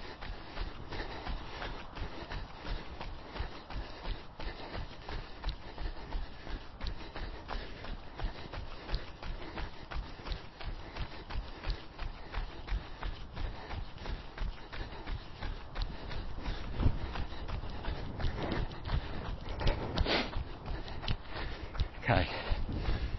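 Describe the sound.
Jogging footsteps during hard 200 m interval runs, a steady, rapid rhythm of many foot strikes throughout, with a person talking over them.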